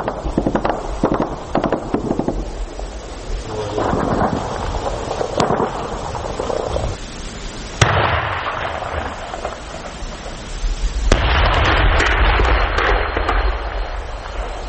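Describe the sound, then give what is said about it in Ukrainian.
Gunfire and explosions ring out during an evening battle near Vodiane, as enemy fire on Ukrainian marine positions is answered with heavy machine guns, grenade launchers and mortars. Dense crackling bursts run throughout, broken by a few sharp, loud blasts. “Це був вечірній бій. Він розпочався трошки далі від села, під Водяним. Ворог почав стріляти по дальнім позиціям українських морпіхів, і наші хлопці почали відповідати.”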